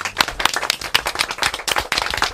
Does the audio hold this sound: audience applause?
yes